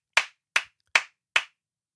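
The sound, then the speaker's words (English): Four sharp, evenly spaced hand claps, each crisp and quickly fading, are followed by silence. It is a slow, deliberate clap on its own rather than a crowd's ovation. “I just want to give you guys a round of applause because”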